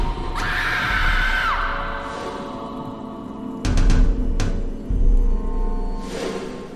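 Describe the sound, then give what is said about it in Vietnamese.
A girl screaming in terror at night: one sustained, high-pitched scream lasting about a second that wavers and then drops away, followed later by a few louder, noisy bursts. “Trúc hét lên kinh hoàng, tiếng hét như xé toạc màn đêm”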